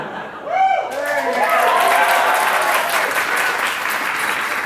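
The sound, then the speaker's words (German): Audience applause swells after a brief voice at the start, then holds as steady, dense clapping until the end. “Die Abwesenheit von Personen sorgt für Applaus.”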